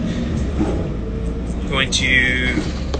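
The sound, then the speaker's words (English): Steady low rumble of a moving tour bus heard from inside while travelling into Phoenix, a continuous engine and road drone with faint voices over it. “We're on the bus traveling to Phoenix. We just got into Phoenix, on our way to the hotel now.”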